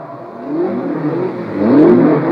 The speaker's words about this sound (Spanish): En este momento todos los autos calientan motores.